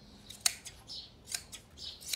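Crisp scissor snips as an animal's fleece is sheared by hand: several sharp, irregularly spaced cuts, three of them louder than the rest, over a faint steady background with no talking.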